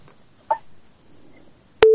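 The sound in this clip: A steady telephone busy tone starts abruptly near the end after a listener's phone call has dropped. A single brief blip comes earlier against a quiet line.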